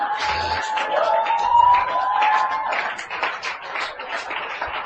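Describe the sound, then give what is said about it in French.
A church audience cheers and claps in acclaim for a bishop, a loud, continuous crowd roar with voices, whoops and scattered claps that gradually eases off toward the end. “Acclame pour Bishop. Alléluia.”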